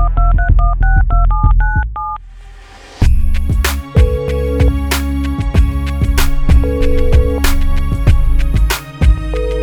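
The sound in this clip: Telephone keypad tones as a number is dialed: a quick run of about eight short, evenly spaced beeps, each a steady two-tone pitch. After a brief pause, music begins and continues to the end.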